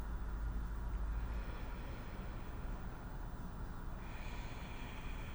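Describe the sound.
A deep breath is drawn in and then blown out through the mouth during a guided relaxation exercise, a steady, breathy rush of air that holds at an even level and shifts in tone near the end.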